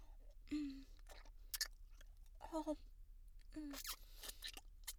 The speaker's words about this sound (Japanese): というわけでいただきます。かわいい二つのたまたま、